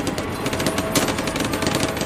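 Machine-gun fire in a war video game, set at a river crossing held by machine-gun posts, rattles as a fast, steady stream of sharp shots, loud and continuous throughout with no talk.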